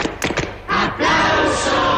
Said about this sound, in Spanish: en RTVE, cada vez que se dice aplauso, de repente suena la sintonía de aplauso